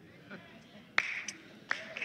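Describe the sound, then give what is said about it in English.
Weak, sparse clapping from a church audience during a sermon: a few isolated, sharp hand claps spaced irregularly apart, thin and faint against a quiet background. “A rather weak golf clap when I talk about paying taxes.”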